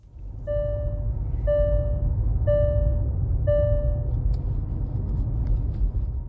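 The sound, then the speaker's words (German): Four short, bright warning chimes from a Hyundai Ioniq 6 speed limit warning ring out evenly, about once per second, over a steady low driving rumble. “Was sehr nervig war, da kann der Ioniq 6 jetzt wenig für, auch hier hatten wir diesen neuen Geschwindigkeitsbegrenzungston. Ach, ja. Und der klingt so.”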